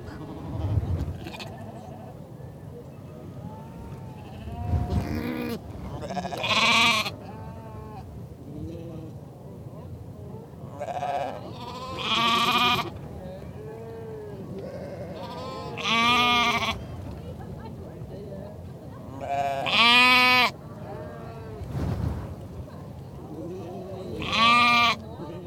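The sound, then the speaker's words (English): A lamb bleats at an agricultural fair in Shetland, probably calling for its mother. Several loud, wavering bleats come in separate bursts, with low background chatter and farmyard noise running underneath. “This is the sound of the lamb probably calling for its mum in 2013.”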